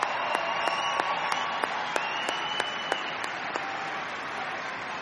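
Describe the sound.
Audience applause for the evening's performers: dense, steady clapping sustained throughout, with a few sharper individual claps standing out above the wash and no voices.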